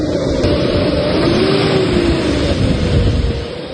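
Off-road vehicles tied together strain to pull a stranded car out of water, with an engine revving in a loud, continuous drone. Its pitch swells in the middle before easing off near the end.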